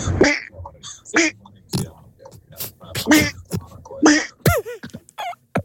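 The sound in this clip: A human voice imitates a cartoon duck nephew's quacking speech, producing a run of raspy, nasal, buzzy quack-like syllables in uneven bursts, some rising and falling in pitch.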